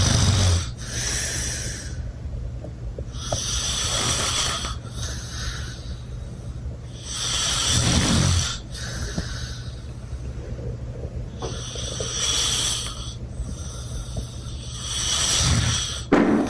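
Loud, rasping snoring from a sleeping man with labored breathing. Each long, harsh rush of air repeats in slow, steady cycles over a low rumbling drone.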